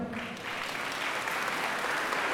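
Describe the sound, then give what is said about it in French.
Audience applause after a dance performance to music at a show, steady dense clapping at moderate loudness that holds evenly throughout, with no talk over it. “Vous pouvez les applaudir”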